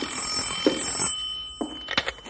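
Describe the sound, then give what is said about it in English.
Telephone ringing at a ranger headquarters, an old-fashioned bell ring in two bright bursts separated by a short pause, moderately loud with no voices over it. “You want me to get the phone”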